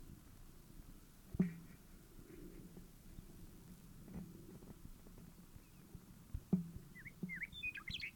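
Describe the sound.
Bird calls: a few short, high chirps near the end, faint over a low rumbling background with a couple of soft thumps earlier.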